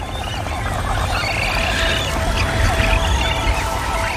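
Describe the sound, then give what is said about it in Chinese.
A hungry magnificent frigatebird chick begs for food with persistent high calls that run without pause over a dense, steady noisy background. “这只饥饿的雏鸟持续不断的起食，吵醒了它毫无经验的妈妈。”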